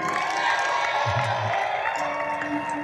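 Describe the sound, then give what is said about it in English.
An audience applauds and cheers at a church gathering to welcome a couple. Dense, steady clapping and crowd noise holds throughout. “I want you to put your hands together and welcome Prince and Philomena.”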